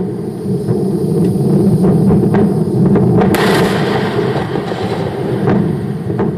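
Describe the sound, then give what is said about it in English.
A SpaceX Falcon 9 rocket explodes at liftoff during a test launch: a loud, deep rumbling roar with crackling bursts and a sharper blast partway through, sustained throughout without voices. “This was the sound on Thursday during a test launch, SpaceX Falcon 9 rocket exploding at liftoff.”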